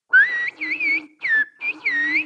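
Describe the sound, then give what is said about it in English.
Whistled Turkish carries a phrase meaning the Black Sea is beautiful, as a few clear, bright tonal bursts. The pitch glides up and down smoothly within each burst, with short gaps between them. No voice or other sound is heard. “Which in whistled Turkish would be, I could say, the Black Sea is beautiful.”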